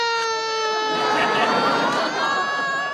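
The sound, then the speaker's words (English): A child whining in one sustained, high, nasal tone that holds steady and unbroken for about three seconds, loud and alone, with no talking over it. “that whining is so annoying. Where did you pick that up?”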